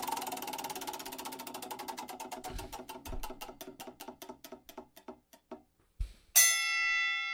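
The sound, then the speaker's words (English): A spinning game wheel ticks in a rapid, even stream of clicks that gradually slows and spaces out, then stops; a bright chime rings out right after the last clicks. “We'll spin the wheel, see who goes first.”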